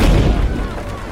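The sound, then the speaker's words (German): Heavy boom of cannon salvos fired aboard a sailing ship: a loud, low rumbling burst at the start that fades into a lingering roar over about a second. “Salven aus den Kanonengeschützen werden an Bord abgefeuert.”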